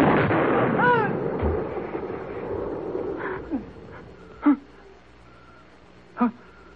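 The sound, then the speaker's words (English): Two sharp, loud gunshots, spaced well apart, follow brief vocal sounds at the start. “I told you I'd shoot. I told you.”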